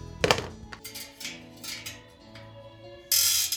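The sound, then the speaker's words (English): Ratcheting clicks and metallic thunks of mechanics turning wrenches in a bike shop: a faint, irregular series of mechanical taps, ending with a louder burst of rattling. “Walk into any bike shop and you'll hear the sounds of mechanics turning wrenches”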